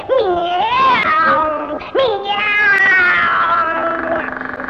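A cat gives two long, loud, drawn-out meows, the first rising then falling in pitch, the second wavering and gradually trailing off.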